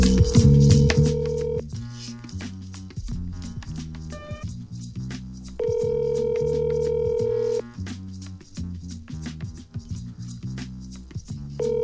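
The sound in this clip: A telephone rings out on a call to a friend that ends up forwarded to voicemail. Two long, steady ringing tones are separated by a pause, with fainter clicks and sounds in between.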